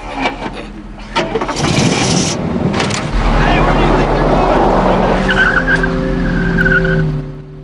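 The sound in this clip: A car engine starts and the car drives off after clipping a bus and spinning, with a loud burst of skidding and road rush followed by a steady, humming engine drone.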